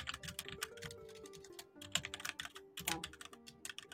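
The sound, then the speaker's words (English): Typing on a computer keyboard: many rapid, uneven key clicks in bursts with short pauses, fairly faint, over a quiet tonal background. “Who's typing?”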